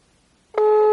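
Telephone tone of an unanswered call: after a stretch of silence, a steady, loud mid-pitched tone starts abruptly about halfway through and holds unbroken to the end.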